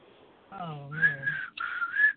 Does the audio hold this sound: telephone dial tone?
no